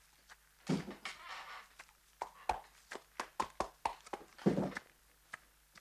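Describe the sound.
Hooves clop as a horse is led into a stable at night, giving an uneven series of hollow knocks and thuds with a few brief rustling scrapes between them.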